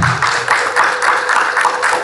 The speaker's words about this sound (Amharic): እስቲ እልል በሉ አንዴ፣ አጨብጭቡ።